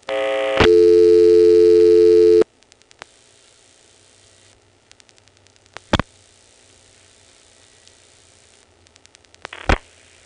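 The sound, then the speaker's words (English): Signaling tones from dialing into a telephone exchange over a 1970s carrier trunk in Prince William County: a loud steady tone for about two seconds, then line hiss with faint clicks and two short, loud tone bursts. “let's call into the PBX. We'll start by dialing 49 to drop the register sender, then 64 Dale City.”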